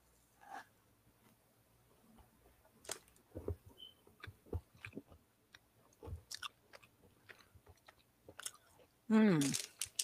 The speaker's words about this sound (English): I can really taste the Smartie because I took a bite of the Smartie.